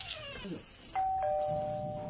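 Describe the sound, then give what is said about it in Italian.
A doorbell is rung by a postman, giving a two-tone ding-dong: a clear high chime, then a slightly lower one a moment later. Both tones ring on and sustain to the end. “Sono il postino. Ma e il postino suona sempre due volte.”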